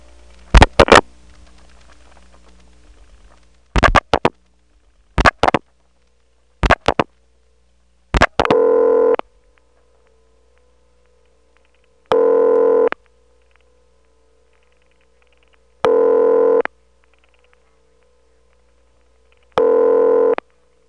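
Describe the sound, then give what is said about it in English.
Telephone switching sounds on a Drake incoming selector connecting through to a PBX. Several sharp mechanical clicks come first, then four evenly spaced steady tone bursts about four seconds apart, over a low, constant line hum. “Having dialed 3-7, we're on the Drake incoming selector, and you do hear the signature reorder. But when we dial 1, that puts us through to the PBX, and the reorder goes away.”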